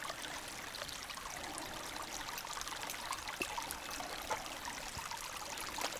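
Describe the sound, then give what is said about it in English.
A tiny babbling brook of cold water trickles along a hiking loop near Dahlonega, Georgia, a faint, even wash of flowing water with light splashy detail and no voices. “On another tiny little stream, Babbling Brook.”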